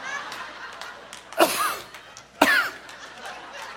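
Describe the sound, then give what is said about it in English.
Two sharp coughs from someone who has just breathed in a strong eucalyptus cleaning scent. Each is a single loud, rough burst, about a second apart, over a faint background. “that was not a fake cough. I really sucked some of it in. Original eucalyptus”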